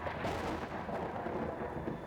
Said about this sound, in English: that storm is getting close